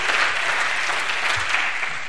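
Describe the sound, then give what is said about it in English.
Audience clapping hands at a preaching service, a steady, dense wash of applause from many people that holds at an even loudness throughout, with no distinct voices. “Somebody clap your hands for him.”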